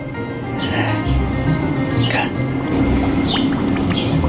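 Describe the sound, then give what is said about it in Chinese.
Bubbling water as a loosely stitched, hand-sewn cloth shoe sole is dropped in and releases air, giving a continuous fizzing, gurgling liquid wash that holds steady from start to finish. “它放进去就冒泡泡了。 对了，你看，说明里面空虚啊。它这个鞋底不密实啊，”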